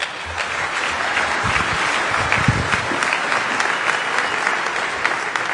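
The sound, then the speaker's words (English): Audience applause welcomes a speaker to the stage at a security conference: dense, even clapping from many hands, steady and fairly loud throughout, with no talk over it. “Let's give him a big hand and welcome today.”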